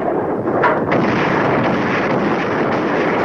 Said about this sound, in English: Heavy artillery fire streaks the night sky.